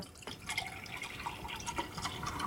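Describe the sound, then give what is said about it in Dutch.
A thin stream of water runs from a small single-handle kitchen tap, making a steady, fairly quiet hiss with a few brighter splashing spatters throughout. No voices are heard. “ik heb een voorbeeld hier staan van een eenwegkraantje. Dat is een heel klein kraantje, is dat? Een heel klein kraantje. Een elegant klein kraantje. Ik zal er even wat water in gaan laten stromen nu.”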